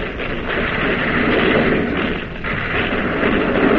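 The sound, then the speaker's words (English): Main battery guns of a warship firing shells in a naval battle: a heavy, continuous roar of rumbling blasts that stays loud throughout, dipping briefly before surging again. “Now the main battery of the Boise is pumping shell to the second Jap cruiser.”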